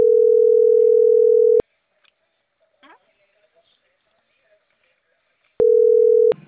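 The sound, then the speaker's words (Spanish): Steady telephone line tone on a call to a colleague, sounding as a long, even mid-pitched hum for over a second, then a gap with faint clicks and rustles before the same tone returns. “marcando al Antonio. Para que no haya tema.”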